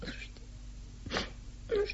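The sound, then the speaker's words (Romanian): A woman cries in a radio drama, with quiet, breathy sobs and whimpers and a brief voiced sob near the end. “De ce plângi?”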